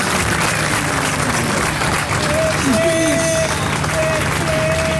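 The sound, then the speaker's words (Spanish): Applause from a large crowd at a rally for the Abuelas de Plaza de Mayo, a loud, continuous roar of clapping and crowd noise with thin tonal sounds rising above it. “Ahí habla Estela de Carlotto. Aplausos de toda esta multitud.”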